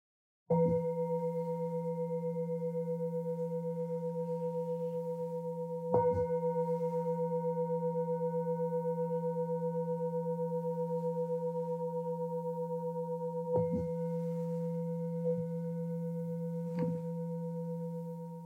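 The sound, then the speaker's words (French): A singing bowl, one used for the stomach, rings with a steady low hum and clear, pure overtones sustained throughout. It is renewed by a few soft strikes, with no voices. “En fait, le son des bols va effectivement pénétrer au niveau du corps.”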